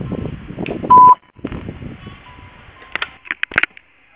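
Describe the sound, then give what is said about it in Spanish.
A voicemail beep before recording a message: a single short, steady, clean tone, loud and lasting about a quarter second, followed by scattered faint clicks and noises. “Si desea, deje su mensaje en la casilla de voz. Después del tono, grabe un mensaje.”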